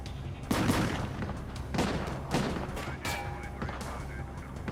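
Volleys of gunfire in a shootout near a parking area, coming from two opposite directions. Several sharp, fairly faint bursts land at irregular intervals over a continuous rough background noise.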